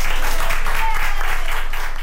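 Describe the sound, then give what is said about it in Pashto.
Doctors and nurses in a Madrid hospital applaud a 104-year-old woman who recovered from coronavirus. The dense, loud clapping stays steady throughout and fades slightly at the end. “د اسپانیا په پلازمینه مادرید کې ډاکټران او نرسان هغې مېرمنې ته چکچکې کوي چې تر 100 کلونو تیره ده او له کورونا رغېدلې ده.”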